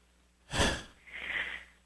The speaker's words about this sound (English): So now take a deep breath.